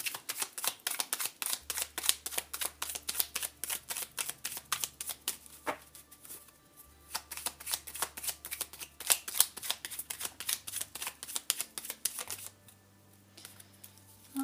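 Tarot cards are shuffled and drawn as many quick, crisp flicking snaps in irregular bursts, some denser than others, over a faint low hum.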